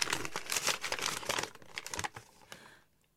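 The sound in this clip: Fabric tearing as an apron is ripped during a struggle over a letter in a German radio drama: loud, dense bursts of ripping and crinkling that grow sparser and fade into silence after about three seconds.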